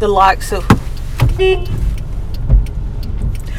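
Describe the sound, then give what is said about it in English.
Car horn toots from a car, a few short bright beeps near the start and middle over low, steady road and engine rumble. “we beeped at someone who we know who thought that we were just beeping at them, randomly harassing him”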